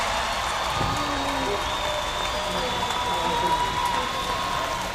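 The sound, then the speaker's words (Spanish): Audience applause, a steady, dense patter of many hands clapping throughout, with a voice speaking over it. “Un aplauso.”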